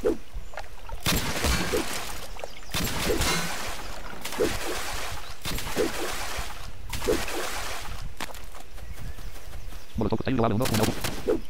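Machine gun fire in a video game: several long bursts of rapid, harsh gunfire, one after another. The rattling is loud and steady throughout and grows denser near the end.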